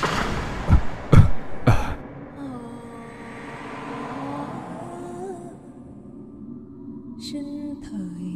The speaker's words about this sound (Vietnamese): Tiếng ho vừa dứt